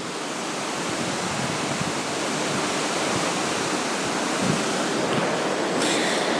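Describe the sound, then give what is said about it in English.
Sea waves on a day at sea during a UK cruise, a loud, steady rushing wash of water that holds an even, unbroken roar throughout, with no voices. “Today is a day at sea, and as you can hear,”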